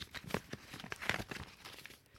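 Card being taken out and unfolded after arriving with a delivered Valentine's Day wine, heard as quiet paper crinkling and tearing in a series of short, uneven rustles.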